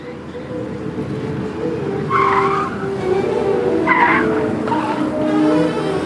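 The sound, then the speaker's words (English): A car drives on a freeway at about 50 miles an hour, its steady engine and road rumble broken by a few short, high tire squeals. “I'm driving, so sometimes when recording this podcast, I end up driving like 50 miles an hour on the freeway”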